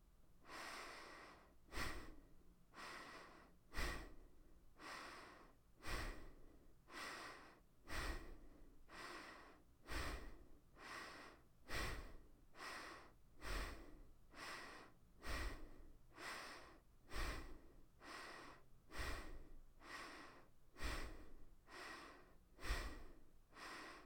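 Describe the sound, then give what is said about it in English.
Fast, intense breathing during a guided breathing exercise: many quick, forceful inhales and exhales in a steady, even rhythm, fairly faint and heard alone without talk. “now we'll slightly increase the speed and intensity of our breath.”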